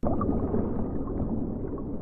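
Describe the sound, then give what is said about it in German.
Sea surf and waves in an art installation with an old shipwreck on the floor, heard as a dense, low, continuous rumbling and gurgling wash that stays even in loudness throughout. “Ein Meeresrauschen und Wellengänge sind geradezu spürbar.”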